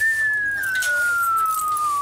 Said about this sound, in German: Dieser Pfeifton, der ist immer für die Kinder, für Papa gedacht.